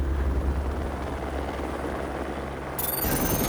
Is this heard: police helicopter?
yes